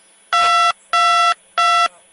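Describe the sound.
Telephone dialing tones for a phone call: three loud, evenly spaced electronic beeps of steady pitch, each lasting under half a second, with silence between them.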